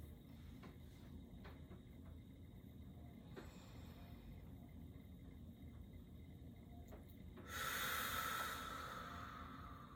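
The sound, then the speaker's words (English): A group at a graduation worship service takes a deep centering breath together: a soft, steady breathy hiss, then a louder broad whooshing exhale near the end that slowly fades. “let us take a deep centering breath together.”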